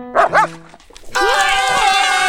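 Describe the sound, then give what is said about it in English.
A puppy gives two quick, high-pitched yips. After a short pause, a bright, sustained tonal sound begins and holds steadily to the end. “Hey, puppy, get back here!”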